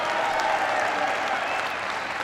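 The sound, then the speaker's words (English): Applause from an audience at a speech in the Cleveland area: dense, continuous clapping that stays loud and even throughout, a steady wash of many hands. “Give him a big round of applause.”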